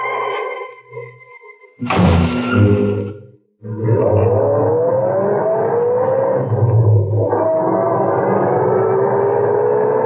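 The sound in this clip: A car driving away from a service station at night: a steady, loud engine roar whose pitch rises as it accelerates and carries on to the end, without voices.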